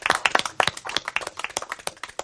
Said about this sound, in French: Applaudissez Tony Cello, s'il vous plaît.